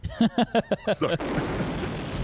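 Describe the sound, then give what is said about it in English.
A napalm bomb explodes in a video game with a broad, sustained roaring burst that comes right after a voice speaks. “You get hit by a napalm bomb, basically smack dab right in the center.”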